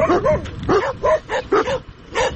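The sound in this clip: Dogs barking at a garbage dump, with several sharp, yelping barks in quick, uneven bursts that stay loud throughout, with short gaps between them.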